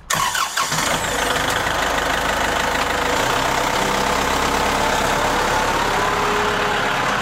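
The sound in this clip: Vehicle engine running steadily as the car drives on, a continuous loud drone with a low hum and broad noise that holds an even level throughout.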